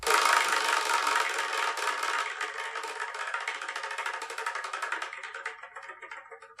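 Rapid clicking of a spinning selection wheel, a dense, bright rattle of ticks that gradually thins out and grows more distinct as the spin winds down, fading toward the end.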